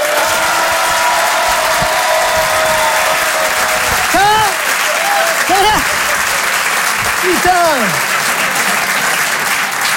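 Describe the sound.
Loud, sustained applause and cheering from a comedy show audience greeting a stand-up comedian, with a voice calling out briefly a few times over the clapping.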